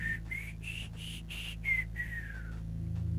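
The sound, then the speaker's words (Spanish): Eerie whistle of a legendary treetop-stalking spectre: several clear whistled notes step upward through a musical scale, then fall away in a long downward glide, over a steady low hum. “El rasgo más aterrorizado de su acecho es su característico silbido. Reproduce de manera rítmica la escala musical de,”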